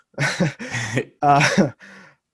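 Throat clearing from a hair caught in the throat: a few rough, voiced hacking bursts come in quick succession, and the last one is noticeably fainter.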